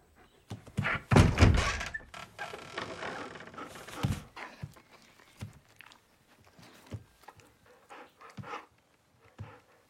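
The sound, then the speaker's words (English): Wooden shed door swinging open with a heavy wooden thunk, followed by scattered softer knocks and bumps of wood at uneven intervals. “He stands on hind legs and places his paws on the wooden wall. The door swings open, and he peers outside.”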